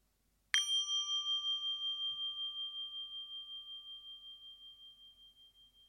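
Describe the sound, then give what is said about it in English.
A meditation bell is struck once with a clear metallic ding, then its pure ringing tone sustains and slowly fades over several seconds with a gentle pulsing waver. “First, the sound of the bell. You'll hear two different sounds. One that sounds a little muffled, and the other a full ringing.”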